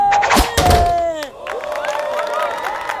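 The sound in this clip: A dart thuds sharply into its target on the third throw, landing in the same spot as the second. A whistling tone slides downward around the impacts, and voices are heard afterward.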